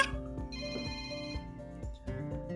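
An electronic ringtone signals an incoming phone call. It plays a melodic sequence of bright tones that repeats and sounds fairly faint, with no talking over it.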